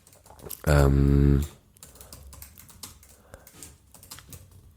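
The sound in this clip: Computer keyboard typing during a quick Google search: irregular bursts of light key clicks, with a short loud voiced hum near the start.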